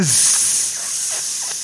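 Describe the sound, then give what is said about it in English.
Bacon sizzling as it cooks, a steady, bright hiss that holds through the whole short stretch with no voices over it. “I'm cooking my bacon. Cooking my bacon.”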